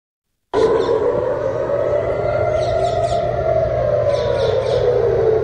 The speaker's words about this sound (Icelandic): Sírenur hafa ómað í Ísrael í morgun vegna árása Írans.